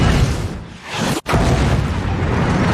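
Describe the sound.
A tank cannon firing in a video game: a loud, dense booming roar fills the whole clip, broken by a brief drop-out near the middle before it surges back.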